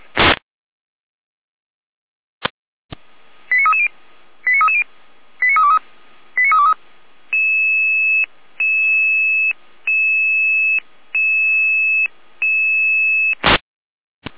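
Dispatch alarm tones from the Jena control centre sound ahead of an emergency call-out announcement. Short paired electronic beeps come first, then five longer steady tones in a regular sequence, with sharp loud bursts at the start and end.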